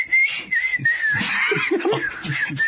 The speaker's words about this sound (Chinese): 也有一个戴着墨镜的人在吹同样的口哨声